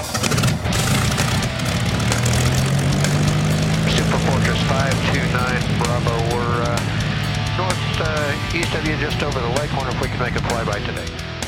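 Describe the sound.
Warbird propeller aircraft engines being cranked up give a loud, continuous droning rumble with a low, steady engine tone that holds throughout.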